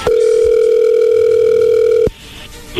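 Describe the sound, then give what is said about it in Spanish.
A telephone dial tone hums as a call is being dialed. The steady, loud, unbroken tone holds for about two seconds, then cuts off abruptly, leaving faint background noise. “vamos a marcarle, Héctor, a tu esposa Yolanda”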